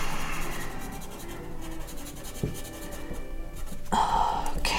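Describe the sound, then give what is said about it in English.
Notes are written by hand: a pen scratches and rubs across paper in a continuous soft rasp, with a few sharper strokes standing out. “Okay, let me write this down.”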